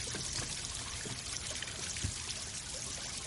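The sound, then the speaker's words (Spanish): Tap water running steadily as a bleeding wound is washed in a bathroom sink, a faint, continuous hiss of the stream with no other sounds. “Más tarde, Tel se lava la herida. El agua se tiñe de rojo.”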